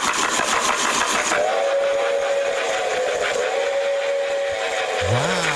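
A model train running in a showcase with its top off, suspended over the track so the wheels spin freely, gives a steady, loud mechanical whir and buzz with a sustained hum, and a short tone rises near the end.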